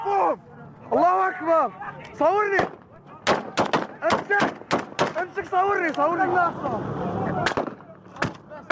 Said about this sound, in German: Wenig später entsteht dieses Video. Es zeigt den Mord an einem der Gefangenen. Wie im Rausch schießen die Kämpfer immer wieder auf ihn ein.